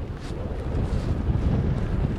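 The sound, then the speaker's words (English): Strong wind buffets the microphone while buggy kiting, a continuous low, rumbling roar with gusty swells throughout and no voices. “The wind is faster than I expected, actually.”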